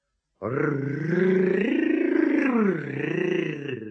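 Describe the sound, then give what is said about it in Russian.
A voice imitates a tiger cub roaring like a grown tiger: one long, rough growling roar that wavers up and down in pitch, loud and sustained after a short silence. “Ну, а р-р-р ты говоришь очень хорошо, совсем как взрослый тигр».”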